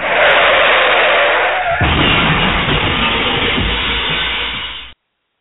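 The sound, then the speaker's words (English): A car crash sound effect begins with a loud, hissing skid. It gives way to a heavy, rumbling crash noise that carries on for a few seconds before cutting off abruptly. “You hear that? Crash and burn.”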